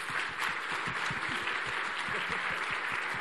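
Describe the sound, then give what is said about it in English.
Applause from a conference audience after a panel talk on patient engagement: a dense, steady wash of many hands clapping, fairly faint and even throughout, with no speech. “let's have a big round of applause”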